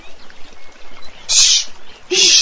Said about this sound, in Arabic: اسكتي أيتها العصافير، اسكتي، لا تحذريه، خليه واقفا مكانه. أيتها العصافير، سوف آكلك أنت أيضا